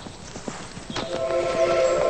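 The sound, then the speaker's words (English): Hoofbeats of a horse urged into a gallop and ridden off: a quick run of soft, irregular clopping hits that grows slightly louder toward the end. “He rides off. As Charlie urges his horse into a gallop, Zach watches him go.”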